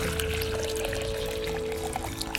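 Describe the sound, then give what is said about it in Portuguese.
A litre of water poured into a hot pan of beetroot and seasoning, a continuous rushing, hissing pour that stays steady and fairly loud throughout. “agora eu vou colocar 1 litro de água nessa panela quente, olha.”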